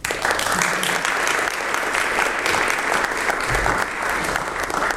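Sustained applause from an audience welcoming a Catalan author to an evening literary discussion: dense, steady clapping that holds at an even loudness for the whole stretch.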